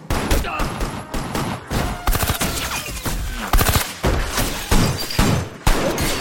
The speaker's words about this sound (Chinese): 一顿枪战之后，大家都懵逼了。胖虎就骂小夫：“老铁，你有病吧？开枪打自己人干啥呀？”